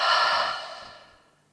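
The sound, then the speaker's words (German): A single deep breath during a guided breathing exercise: one long, airy exhale that starts loud and fades away over about a second and a half, with no voices. “Atme mal ein. Jetzt. Und dann atme aus.”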